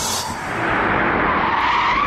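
Tires skidding as a car brakes hard for a traffic light, a loud continuous rubbery screech that holds steady and harsh throughout, with no pause or letup.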